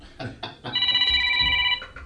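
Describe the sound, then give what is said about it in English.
A mobile phone rings with a sustained electronic chord of bright tones that holds steady for about a second before cutting off. “No, it's oh, hang on, that's my phone. Yeah. Hang on, sorry, go away. Go away, clear off.”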